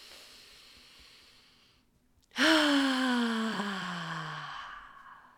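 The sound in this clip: A deep breath drawn after a quiet pause, loud and breathy, carrying a low voiced tone that slowly falls and fades over about two seconds.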